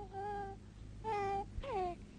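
A three-month-old baby cries in three short, wavering wails, the last one bending downward in pitch. The cries are fairly faint, with brief pauses between them.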